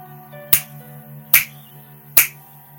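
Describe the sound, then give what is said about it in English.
Three crisp finger snaps, evenly spaced under a second apart, each a sharp bright click standing alone over a soft, steady low hum. “anytime you hear me snap my fingers 3 times”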